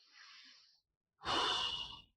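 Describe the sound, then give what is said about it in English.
Breathing from one person, heard alone: a faint, soft airy breath, a brief silence, then a louder, rushing breath lasting just under a second. “Take a breath.”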